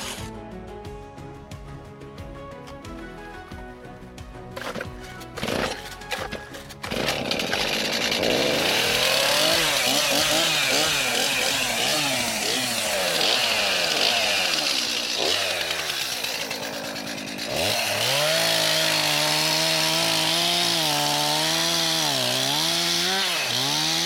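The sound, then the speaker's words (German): A chainsaw cutting an oak in woodland: a few sharp clicks and low engine idling, then a loud, sustained roaring whine whose pitch wavers as the chain bites, dipping briefly before revving back up. “ich schärfe jetzt mal flott durch und dann starten wir gleich mit dem Absägen.”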